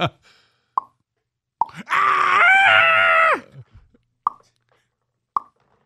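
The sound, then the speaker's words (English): A loud, sustained human scream lasting about a second and a half, strained and wavering. A few sharp, isolated clicks come before and after it. “That was a human scream.”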